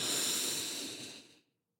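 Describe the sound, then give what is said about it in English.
Slow, deep inhale through the nose or mouth, taken as a guided belly breath: a soft airy hiss lasting about a second and a half, gradually tapering off before silence. “let's breathe in slowly and fill that belly up.”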